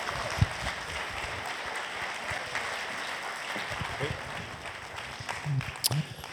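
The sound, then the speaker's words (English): Audience applause at a church as a bishop is welcomed to speak: sustained, dense clapping at a fairly even level, with a few sharper claps toward the end. “So would you please put your hands together and welcome Bishop Graham Tomlin.”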